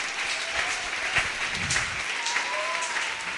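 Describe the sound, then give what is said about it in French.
Audience applause during a bilingual French and English teaching, a dense, even patter of many hands clapping that holds steady at moderate loudness from start to finish. “Acclamez. Give a loud clap offering.”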